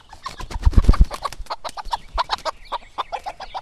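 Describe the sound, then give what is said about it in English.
Hens cluck in a wild garden in Oakland, a rapid, busy run of short clucks and chatter, with a few louder, lower notes near the start. “It may sound like we're on a farm, but we're actually inside the colorful Oakland cocina of Luz Calvo and Catriona Rueda Esquivel. All that hen clucking is coming from their wild garden outside.”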